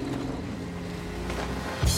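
A van engine revs on a road, a steady low rumble that swells into a louder, rising surge near the end.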